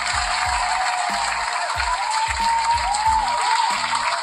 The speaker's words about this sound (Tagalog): Palakpakan ko ulit.